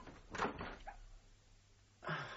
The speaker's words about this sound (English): I'm going to open this door.